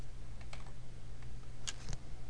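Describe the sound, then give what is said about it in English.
A few sharp key clicks from a computer keyboard, one of them the Enter key being pressed, sound over a steady low hum with no talking. “So now I will hit enter.”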